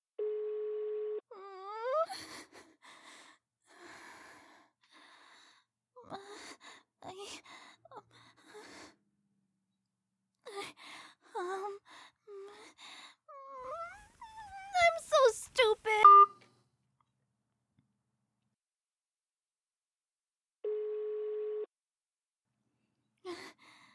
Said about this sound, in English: The owner of this phone is not available to take your call. Please leave your message after the tone.